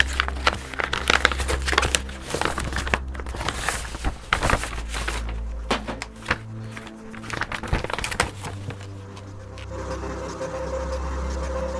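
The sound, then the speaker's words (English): Paper crinkling and tearing as an envelope from Newspaper Club is opened, with many scattered rustles, crackles and rips packed into the first two-thirds before the handling quiets down. “A nice envelope here from Newspaper Club for their prints not dead. Let's open this up.”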